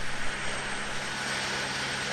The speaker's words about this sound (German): Der gelbe Rettungshubschrauber steigt senkrecht nach oben, dann dreht er die Nase nach Norden und fliegt mit Tempo 230 in Richtung Lennestadt im Sauerland.